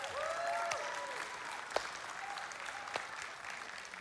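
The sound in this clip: Audience applause in a church as two people are welcomed up to the platform: steady, dense clapping that fills the whole stretch, with a few sharper individual claps standing out.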